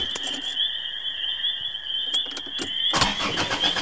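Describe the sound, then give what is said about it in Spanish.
A compact car parked at a roadside fails to start because it is out of fuel. The starter cranks in rough, uneven bursts under a steady high whine and grows louder near the end. “las luces del auto compacto estacionado a un lado de la carretera disminuyeron su intensidad al volver a intentar arrancar el motor”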